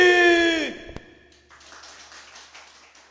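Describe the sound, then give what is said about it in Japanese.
Faint audience applause at a singing competition, starting after a held vocal note ends and a single sharp knock, then continuing softly as a diffuse patter. “皆さん拍手でいきましょう。”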